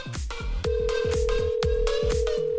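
An electronic telephone ringtone sounds on an unanswered call as a fast, regular train of chirping pulses. A steady held tone joins after about half a second and continues to the end.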